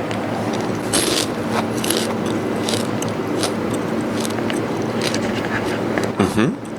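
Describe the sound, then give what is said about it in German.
Crisp crunching from a large beetle being eaten: many sharp, crackling bites and chews in quick succession, under continuous background talk. “Der ist so crunchy, ne? Um nicht zu sagen, das ist die Mutter der Crunchiness.”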